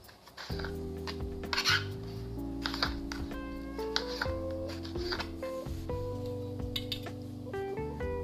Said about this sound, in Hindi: ऐसे टमाटर के हम लोग टुकड़े कर लेंगे स्क्वायर टाइप में कट कर देंगे